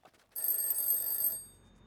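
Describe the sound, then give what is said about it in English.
Telephone ringing in the early morning: a single high, bright electronic bell ring lasting about a second, then quickly fading into silence. “phone rang early the next morning, waking him from a dead sleep”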